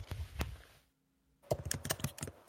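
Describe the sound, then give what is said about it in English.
Typing on a computer keyboard: rapid clacking keystrokes in two busy bursts separated by a brief silence, with no talk. “What's all that clacking for? Clackety clack clack. Might be me typing.”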